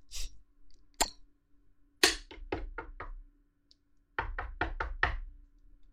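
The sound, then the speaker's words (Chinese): Knocking on a door: a few isolated raps, then two quick runs of about five sharp knocks each, crisp and fairly loud against near silence. “你妈又来敲门了。”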